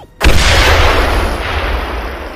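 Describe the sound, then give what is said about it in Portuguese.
A grenade explosion sound effect from a cyberpunk tabletop RPG session: after a brief quiet moment, one sudden loud blast hits, then a long, rumbling, noisy roar slowly fades. “explode a granada. Quando a fumaça da explosão começa a se dissipar”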